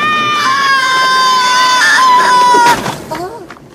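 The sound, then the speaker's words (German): A cartoonish creature's scream as a small prehistoric flyer is flung through the air and lands: a loud, sustained, high wailing cry that breaks off abruptly, followed by a brief scuffle of softer noises. “als Littlefoot ihn loslässt, wird er durch die Luft geschleudert und landet mit einem Schrei auf dem Boden”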